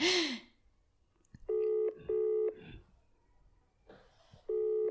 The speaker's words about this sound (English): That's the phone ringing. Oh, I suppose you could hear that.